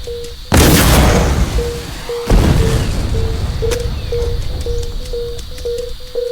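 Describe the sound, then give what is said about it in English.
Bomb explosions in a video game battle: two heavy booms, each with a long rumbling decay, while a steady, evenly pulsed beeping tone repeats in the background. “Axo Squad bomb just exploded.”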